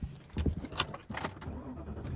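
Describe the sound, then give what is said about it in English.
Car being driven, with a low engine rumble broken by several sharp clicks and knocks, fairly quiet overall. “And I am driving home.”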